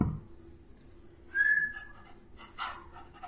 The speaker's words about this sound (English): I'm not whistling to you, I'm whistling to my horse.